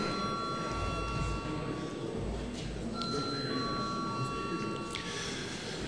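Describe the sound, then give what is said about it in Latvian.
A parliamentary session bell, rung before a vote, gives a faint, steady electronic ringing that holds its tone for several seconds over a noisy background. “Lūdzu zvanu.”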